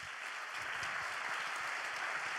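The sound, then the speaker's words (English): Applause from a church audience welcoming a pastor onto the stage, a steady, dense wash of clapping that fills the whole short stretch without voices over it. “come on, would you put your hands together and give a big Rev City welcome to Pastor Richard Hinojosa.”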